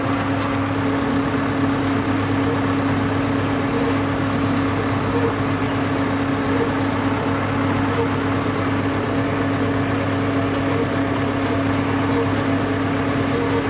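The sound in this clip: Engine drone of a farm vehicle with a forward/reverse selector, driven on a potato farm as the driver applies a little gas. A constant, even rumble runs throughout with no clear change in pitch.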